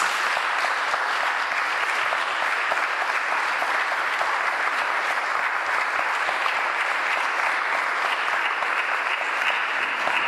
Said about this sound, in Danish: Skal vi give dem hånd med?